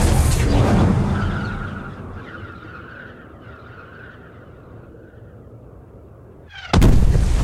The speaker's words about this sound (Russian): Посреди двора падает бомба и разверзается ад. Взрывной волной качнуло стены. Все взлетело на воздух.